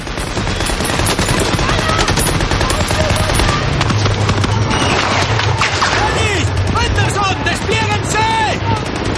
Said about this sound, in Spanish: El artificiero acciona el detonador. Jackson dispara desde el campanario. Henderson dispara su ametralladora.